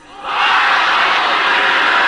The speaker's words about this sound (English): I want you to holler that at me again. I want it louder than that.